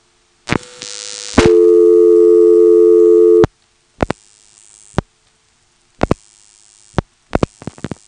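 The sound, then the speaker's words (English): Telephone exchange switching sounds after the digits 482 are dialed. A short burst is followed by a steady, hum-like tone lasting about two seconds, then three brief bursts of clicks and tones separated by silence, with no voices. “We've dialed 482, that little noise is the routing decision, and again it's decided to pulse repeat the next digit we dial.”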